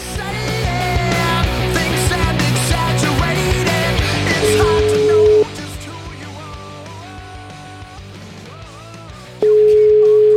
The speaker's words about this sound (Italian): Allora proviamo a chiamare Lutwak, con cui abbiamo un appuntamento, vediamo un po', eh.